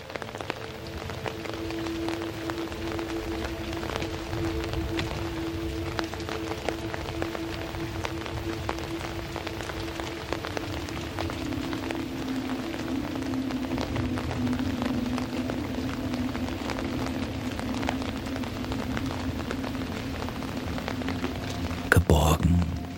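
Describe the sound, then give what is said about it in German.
Gentle rain falling steadily, a continuous soft hiss of many drops that stays even throughout, with no talk. “der leicht schimmernde Regen weiter seine beruhigende Melodie spielt”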